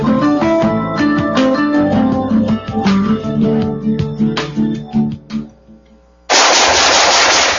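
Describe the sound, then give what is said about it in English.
Loud machine gun fire rips out in long rapid bursts of shots that gradually thin and fade. After a short quiet gap, a sudden dense blast of noise cuts in. “Nice shooting.”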